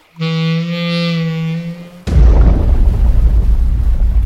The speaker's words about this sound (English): McCabe, was that my imagination, or did that sound like a really big fish exploding?